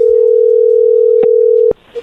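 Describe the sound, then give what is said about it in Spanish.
A telephone dial tone plays before a call is placed, a loud steady single-pitch hum lasting under two seconds, broken by a click midway and ending abruptly with another click before quiet. “vamos a marcarle en este momento, no haga ruido”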